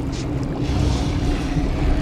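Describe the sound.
Boiling water roars in the harbour of Yokohama as a low, dense rumbling wash under a constant deep hum. The roar swells a little after the first moment and stays strong to the end.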